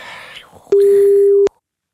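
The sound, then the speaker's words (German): A single telephone ringback tone on a domestic call sounds as one steady, mid-pitched beep lasting under a second. It follows a moment of faint talk and then stops, leaving silence. “Es tutet.”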